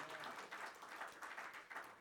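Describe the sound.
An audience at a church service claps in praise, steady dense applause throughout, with no voices standing out above it.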